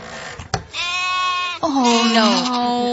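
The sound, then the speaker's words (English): A sheep at a market bleats twice in long, wavering cries, with a sharp click before each. The second, slightly lower bleat sags a little in pitch as it trails off. “Quiero una oveja pequeñita. Una oveja pequeñita? Sí. Bueno, pues tengo como 20.”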